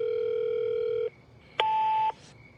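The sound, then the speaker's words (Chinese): A telephone dial tone at home: a steady, clear tone lasts about a second, then after a short gap comes a single brighter tone of about half a second, like a key being pressed. “他没有上楼，而是鼓起勇气拨通了少群的电话”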